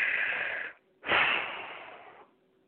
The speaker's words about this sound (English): I want you to take a deep in-breath, and then when you exhale it out, I want you to push that breath out, really pushing out and releasing all negative or blocked energy. So it would be something like...